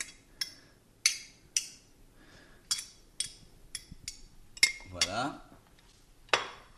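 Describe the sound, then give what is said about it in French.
Crushed garlic purée is mixed into a dish of lentils, with many light metallic clinks of cutlery against the dish at an uneven pace and a brief scraping stir, all fairly quiet. “Donc, je mets l'ail écrasé, la purée d'ail, dans mon plat de lentilles.”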